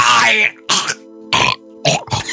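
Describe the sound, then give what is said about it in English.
A voice imitates choking with a few short, harsh, gurgling throat bursts separated by brief silences, each rough and strained. “That's really enough choking noises for the night.”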